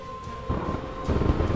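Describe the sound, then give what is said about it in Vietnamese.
Thunder from a lightning bolt rolls as a low, continuous rumble. It swells in two surges, moderately loud, with no other sound. “Mỹ Dung và Thụy nhìn chùm tia sét bây giờ còn to hơn cả chục cái cột nhà”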